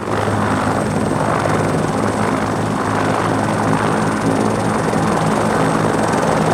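A rescue helicopter in flight gives a steady, continuous rotor drone. A low, pulsing thrum sits under a faint high whine, loud and unchanging from start to finish.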